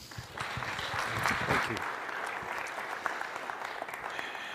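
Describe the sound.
A church audience applauds to welcome a guest speaker at a morning service. The clapping swells quickly, then thins out into a few scattered claps.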